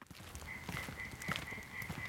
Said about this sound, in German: Und der Laubfrosch quakt zur Brautschau.